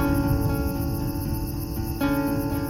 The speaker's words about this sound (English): It's got the sounds of the highway and the crickets.